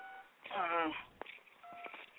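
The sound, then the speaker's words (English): Telephone keypad dialing tones come as short, steady beeps at the start and again near the end. They sit faintly under a burst of someone talking. “Somebody still dialing numbers. Yo, somebody need to let that shit go.”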